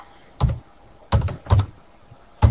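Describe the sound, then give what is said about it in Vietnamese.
Typing on a computer keyboard, heard as four short bursts of clicky keystrokes separated by quiet pauses, with no voices. “À, tham và sân thôi để tôi viết ra đi,”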